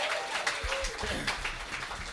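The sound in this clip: An audience claps for the opening act at a live gig; the applause is fairly soft and brief, with a voice heard over it.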